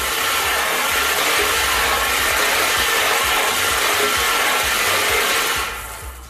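Lottery balls tumbling in a spinning bowl, a dense, continuous rattling clatter that stays loud and steady and then eases off slightly at the very end, with no voices.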